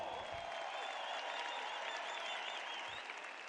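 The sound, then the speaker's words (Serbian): Audience applause at a tavern-style evening show celebrating its birthday: a steady, dense wash of many hands clapping, moderately loud and continuous, with no talk over it. “Ja ću vam zamoliti jedan veliki, veliki aplauz.”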